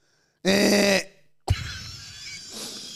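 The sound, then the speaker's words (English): Two bursts of coughing into a microphone: a harsh, voiced throat-clearing cough first, then after a short pause a sharper cough that fades into rough breathing. “Both you and I have just been coughing into the mic.”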